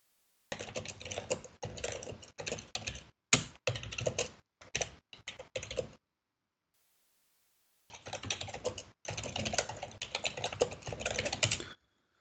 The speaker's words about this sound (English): I'm a bit slow today because I need to type as well.